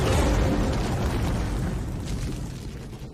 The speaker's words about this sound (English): Quade reaches the tunnel's exit and triggers an explosion to block the path of the raging raptors.